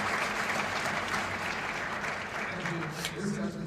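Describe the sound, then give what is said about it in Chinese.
An audience at a conference session applauds warmly, a dense, continuous wash of clapping that holds steady from start to finish while a voice speaks over it. “让我们给予Stern 先生及刘部长热烈的鼓掌”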